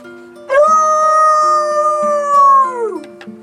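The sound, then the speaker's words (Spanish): A neighbour's dog that has got loose howls in one long, loud, sustained tone that holds steady, then slides down in pitch as it trails off. “Otra vez se soltó el perro del vecino. ¡Qué bien! Siempre se parece, me asusta, si yo me creo que es un lobo.”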